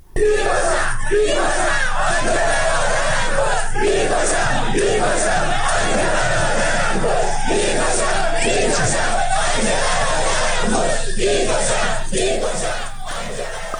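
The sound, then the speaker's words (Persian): A large crowd of protesters chanting slogans together while confronting government forces. The sound is loud and sustained, with rhythmic pulses of massed voices throughout. “گزارش های رسیده حاکی‌ست معترضان با شعارهایی چون ما همه اهل جنگیم، به جنگ تا به جنگیم، به مقابله با نیروهای حکومتی پرداختند.”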